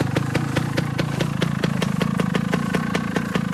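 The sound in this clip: A motorcycle engine running at a steady idle, a loud, fast, even clattering pulse that continues throughout with no voices.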